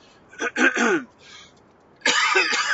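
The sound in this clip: Someone clears their throat while sitting in a fully loaded car: a few rough, rasping bursts, a short pause, then a longer and louder gruff clearing.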